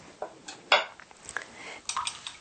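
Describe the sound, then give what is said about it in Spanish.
Whisking a vinegar sauce in a bowl: a few irregular clinks and scrapes of a utensil against the bowl, one louder clatter standing out, with no talk. “Y entonces esto... lo vamos a batir. Se bate.”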